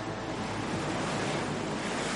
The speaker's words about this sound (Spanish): Vera también se mete entre las olas.